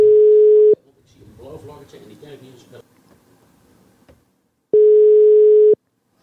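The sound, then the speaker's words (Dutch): A telephone line tone sounds while someone places a call: two steady, mid-pitched beeps, each about a second long, with quiet talking in the gap between them. “Laten we hem even bellen.”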